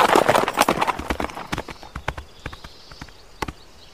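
A horse's hooves clip-clop through a jump in many quick, uneven beats, heavy and loud at first, then lighter and more spaced toward the end.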